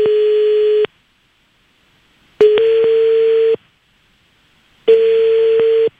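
Ringing tone on an outgoing telephone call: three steady electronic tone bursts, each about a second long, separated by longer silent gaps in an even rhythm.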